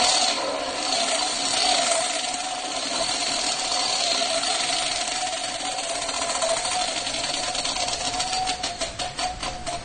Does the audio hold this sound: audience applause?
no